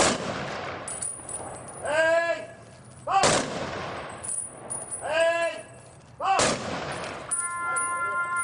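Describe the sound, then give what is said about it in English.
Three loud rifle volleys fired into the air by soldiers in a Veterans Day salute. They come at evenly spaced intervals, and each sharp crack is followed by a long, rolling decay. “Military bands play, and soldiers fire guns into the air in a salute to remember those who died in service to their country.”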